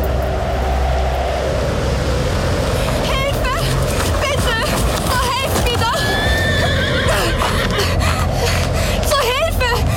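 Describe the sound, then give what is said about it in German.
A horse being ridden into town on a stormy night neighs in a few shrill, wavering whinnies. Continuous loud rushing noise runs underneath throughout. “In einer stürmischen Nacht, nur wenige Tage später, kam Elizabeth Blassenville dann nämlich höchstpersönlich in die Stadt geritten.”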